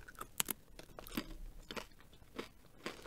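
Crunching bites into a tea-flavoured snack, with a few sharp crisp cracks followed by quieter chewing. The sounds are faint and stand alone, with no talk.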